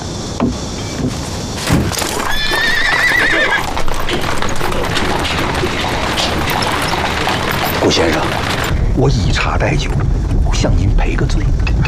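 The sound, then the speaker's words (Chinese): Clip-clopping hooves of a hired horse-drawn carriage with a high whinny early on, while people talk over the steady, loud hoofbeats throughout. “您请，给您租的马车，请。”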